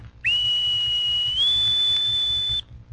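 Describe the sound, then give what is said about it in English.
A bosun's pipe sounds one high, piercing whistle note, held steady for about two seconds and stepping slightly higher in pitch midway before stopping cleanly, with no voices. “When you hear the bosun's pipe like this,”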